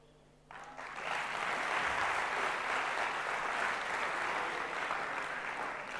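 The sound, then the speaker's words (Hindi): An audience claps loudly. The applause starts abruptly after a short quiet, then holds as a dense, steady wash of many hands to the end. “जोर से ताली बजाइए, सब जोर से ताली बजाइए, very good, very good.”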